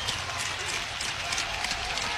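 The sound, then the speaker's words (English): Baseball stadium crowd cheering at an Iowa game with two outs and runners on the corners, a fairly faint, steady hiss of voices and applause with no break. “Runners at the corners. Crowd comes to life here.”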